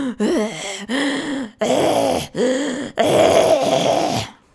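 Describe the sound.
A voice imitates a sleeping person's loud, heavy breathing with five long, groaning, voiced breaths in a slow, steady rhythm, the last one the longest and strongest.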